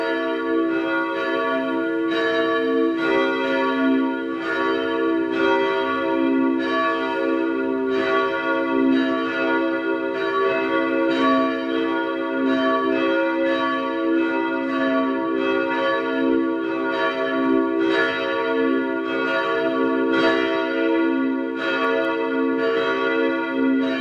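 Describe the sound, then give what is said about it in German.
Parish church bells ringing at noon in Vienna's third district: many bells struck in a loud, continuous peal of overlapping, ringing metallic tones that sustain and blend for the whole stretch, with no talking. “Es ist 12 Uhr. Sie hören die Glocken der Pfarrkirche St. Ottmar unter den Weißgerbern in Wien 3.”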